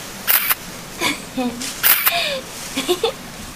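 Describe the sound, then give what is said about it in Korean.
A camera shutter snaps as a photo is taken, a few short crisp clicks set among casual talk and a burst of laughter. “나 사진 찍어줘, 오빠. 아 아, 서봐. 김치.”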